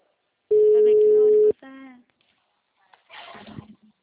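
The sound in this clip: Telephone tones on an outgoing call: a steady, loud tone lasting about a second, then a shorter, softer tone, followed after a pause by a voice answering.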